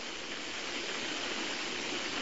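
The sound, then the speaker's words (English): Water bubbling at Pensacola Beach, a steady, dense rushing hiss that holds without pauses or talking. “I was just talking about this water bubbling here. This is Pensacola Beach.”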